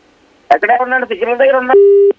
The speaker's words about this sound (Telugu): Signal కొందరికి signal లేని చోటుకి వస్తున్నారు, ఫోన్లు కట్ అవుతున్నాయి శ్రోతలకు.